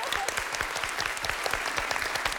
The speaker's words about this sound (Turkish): Çok teşekkür ederim. Çok yardımcı oldunuz. Alkışlıyorum.